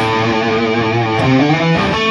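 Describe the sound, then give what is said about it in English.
Electric guitar notes played through overdrive distortion on a drive setting ring out as buzzing, sustained tones at an even, steady loudness, with the notes shifting partway through. “So if I'm playing a distortion, I'll put mine on drive sound. So if I'm playing a low note”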